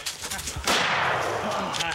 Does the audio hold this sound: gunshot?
yes